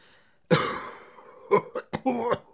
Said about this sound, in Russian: Шахтер распахнул дверь и закашлялся.